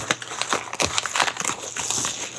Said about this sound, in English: I have an envelope. And inside that envelope is a box. We're going to find out exactly what that box is like.